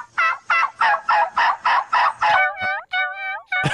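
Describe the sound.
A woman imitates a turkey's mating gobble, voicing a rapid, evenly pulsed run of throaty gobbles that gives way to a few higher, warbling calls.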